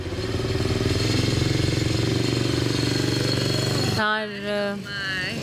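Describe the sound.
Go-kart engine built for a small child chugs steadily with a loud, rattling drone for about four seconds, then cuts out as a voice takes over.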